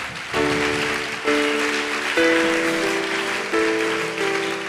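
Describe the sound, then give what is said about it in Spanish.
Church audience applause during a worship service, steady and loud, with sustained musical chords ringing through it and changing several times. “Si le va a dar ese aplauso al Señor, déselo fuerte.”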